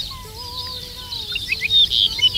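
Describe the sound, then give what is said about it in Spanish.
An Arricotí bird sings its titutí call: high, rapid chirping notes that grow louder toward the end. “Arricotí, se llama como tal porque es una emulación de la onomatopeya que produce, uh-huh, en el canto, el titutí, ese que realiza en varios momentos. Pues, profesor Juan, mira, está a ver. Está cantando.”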